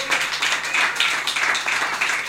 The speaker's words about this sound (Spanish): Uno más, un aplauso para Fede Campos.